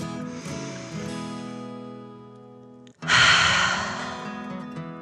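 A slow, deep breath in and out, ending in a loud, breathy exhale that rises sharply over soft, sustained background music.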